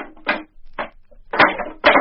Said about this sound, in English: Oh, hang it. I'll have to get this drawer fixed. It sticks all the time.